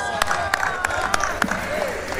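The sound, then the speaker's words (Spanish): Audience applause after a recited poem, scattered sharp claps over a steady murmur. “Un aplauso para Lucía.”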